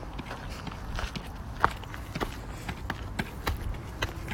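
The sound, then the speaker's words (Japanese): Footsteps climbing stairs up toward the round, raised mound of an ancient keyhole-shaped burial mound: faint, irregular scuffing steps, many in succession, with one slightly sharper tap partway through. “円のあの小高い丘のところに向かって階段を登っているところです”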